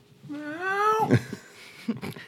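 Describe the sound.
A house cat lets out one long, drawn-out meow that climbs steadily in pitch before breaking off, followed by a few faint knocks.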